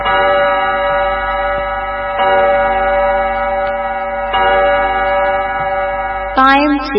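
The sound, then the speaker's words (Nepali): Radio studio clock time signal marking eight o'clock at night: loud, sustained bell-like chime tones struck a few times about two seconds apart, ending with a brief rising tonal sweep. “यति बेला हाम्रो स्टुडियोको घडीमा रातिको ठिक 8 बजेको छ।”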